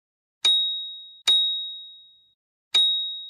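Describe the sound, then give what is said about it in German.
Ringing dings with a vibrating buzz: three bright, high-pitched chime strikes, each ringing out and fading before the next. The second follows the first closely; a longer pause comes before the third. No voices. “es hat geklingelt und vibriert”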